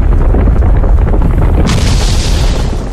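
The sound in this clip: A booming, rumbling quake attack effect from a video game battle; dense, loud low rumble runs throughout, with a brighter crackling burst partway through before fading at the end.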